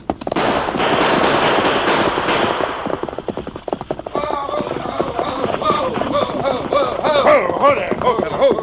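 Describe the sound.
Gunfire rings out in a radio-drama Western shootout during a stagecoach holdup, with a dense burst of rapid shots at the start, followed by scattered shots mixed with raised, shouting voices.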